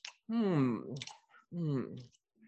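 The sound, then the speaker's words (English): A voice makes tongue noises, imitating Tigger tasting a mouthful of honey. Quiet clicks and smacks mix with two drawn-out voiced, wavering hums. “he looked up at the ceiling and made exploring noises with his tongue. Can you make exploring noises?”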